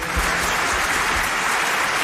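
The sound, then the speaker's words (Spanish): Applause for a guest being welcomed: dense, even clapping from many hands, sustained at a steady level for the whole stretch with no voices over it. “Aplauso para Sergio del Molino, por favor,”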